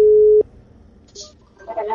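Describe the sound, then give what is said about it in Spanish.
Telephone tone heard while dialing a call: a steady, loud electronic beep that cuts off abruptly, followed by faint clicks and a voice starting at the end. “Ay, perdón. Le marqué mal, espérame. Ahí está, déjenme marcar una persona que me quiere contar una historia.”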